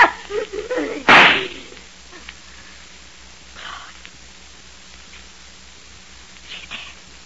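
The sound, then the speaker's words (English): A single gunshot in a radio-style drama rings out as a sharp, loud crack just after the start, then drops away to faint rustling and near-quiet. “Maybe I am crazy. But in just 2 seconds, I'm going to shoot you right through the heart.”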